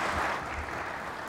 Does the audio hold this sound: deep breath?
no